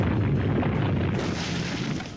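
A deep rumbling blast from an earth-type quake attack in a turn-based video game battle, a loud sustained roar lasting about two seconds and easing slightly at the end.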